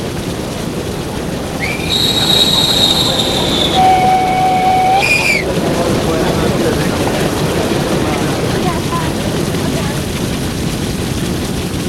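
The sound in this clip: A train arrives at a station with a continuous loud rumble, and high metallic squealing tones rise over it for a few seconds before the steady rolling noise carries on.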